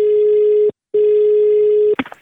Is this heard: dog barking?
no